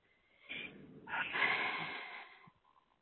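A person takes one long, audible breath, soft and airy and lasting about two seconds, with no talk around it.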